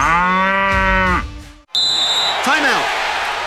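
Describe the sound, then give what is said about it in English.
A cow lows once, a long, deep harmonic moo that holds steady and then drops away, followed by a few seconds of scattered, noisier sounds. “look for the cow as it grazes daily from page to page. Find it, tip it, and enter to win.”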